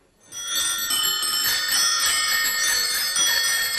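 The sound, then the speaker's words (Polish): A bicycle bell rings, tied to mountain bike trails in Szczyrk, starting just after a brief quiet moment and then trilling continuously at a bright, high pitch, loud and alone without voices. “No może nie ma dzwonków, bo rzadko w rowerach górskich jest dzwonek, ale chodzi o rowery.”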